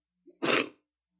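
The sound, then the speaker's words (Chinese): A single sharp, explosive cough from someone with a cold, preceded by a short quick intake of breath, then silence. “不过呢我这个星期都在感冒，都在咳嗽，对不起啊”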